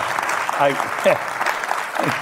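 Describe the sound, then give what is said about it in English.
A live audience at a recorded onstage interview gives a standing ovation, steady clapping under a voice that talks over it. “You're getting a standing ovation.”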